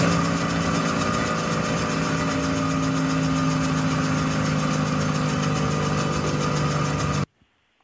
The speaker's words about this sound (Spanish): esto es el motor funcionando, tal cual, ¿no?